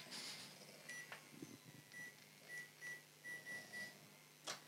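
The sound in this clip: A microwave oven is programmed for four and a half minutes and gives a series of short, high beeps. The beeps are faint and spaced unevenly over a soft background hum.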